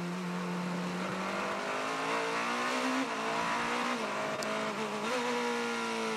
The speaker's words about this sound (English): Another car into the pit lane.